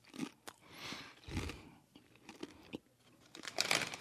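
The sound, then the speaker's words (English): Faint crinkling of a snack bag and crunchy chewing as someone eats strange-smelling novelty-flavored chips, with irregular crisp bites and rustles. “Let me try these chips. See what he talking about over there. It's the smell throwing me off, but fuck it. They don't taste like they smell.”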